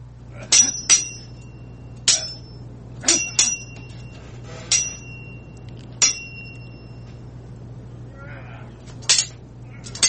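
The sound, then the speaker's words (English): A sword sound effect of sharp metallic clangs with short ringing tails, several hits at irregular intervals over a low steady hum. “And where is my sword ratchetness sound effect? Take your time. There we go.”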